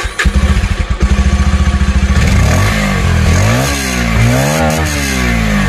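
Motorcycle engine at idle with rapid, even firing pulses, then revved repeatedly so the pitch climbs and falls in waves. Loud and steady, with no talk.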